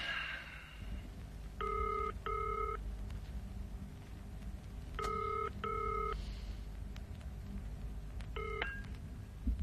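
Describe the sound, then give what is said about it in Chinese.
Touch-tone telephone dialing: a few short keypad beeps, mostly in quick pairs with gaps between them, sound over a low, steady background hum. “例如咁啊，打个电话先。”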